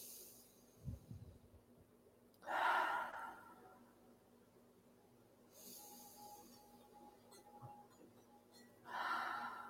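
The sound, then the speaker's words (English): Slow, deep cleansing breaths during a guided breathing exercise, in through the nose and out through the mouth. Three loud, airy rushes of breath are separated by long quiet pauses, with a faint softer breath near the start. “we'll just take three cleansing breaths in through the nose and out through the mouth. Here we go, in through the nose.”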